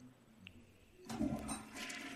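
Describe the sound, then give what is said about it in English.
A toilet flushes in a hotel bathroom. After near silence, a sudden loud rush of water begins partway through and continues to the end. “you keep flushing it! Flush, you want me to flush it? Hang on. I said do not flush the toilet.”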